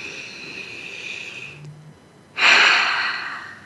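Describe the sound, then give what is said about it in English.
A deep breath taken during a guided relaxation exercise: a soft, steady airy hiss, then a brief lull, then a louder, sustained rush of breath that slowly fades, with no talking. “Take a deep breath again.”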